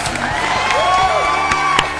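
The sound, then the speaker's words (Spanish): Crowd cheering and applause used as a sound effect on a radio show: a loud roar of voices with high whoops and whistles over it and a few sharp claps. “Re tarde llega con los aplausos.”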